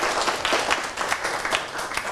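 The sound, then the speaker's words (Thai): A class of students applauding a classmate: a dense, steady patter of many hands clapping together, fairly soft and continuous, with no clear pauses. “ปรบมือให้เพื่อนด้วยครับนักเรียนนะครับ”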